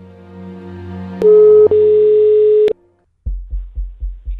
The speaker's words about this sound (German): Und wir werden jetzt diese Gewinnerin anrufen. Und ich hoffe, dass sie dran geht.